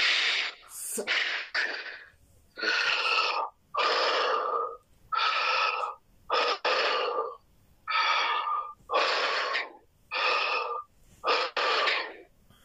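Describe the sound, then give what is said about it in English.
Heavy mouth breathing heard over a phone call: many loud, breathy in-and-out gusts that come in a steady rhythm with short silent gaps between them, and no talking. “Just breathe in and out 5 times heavily with your mouth.”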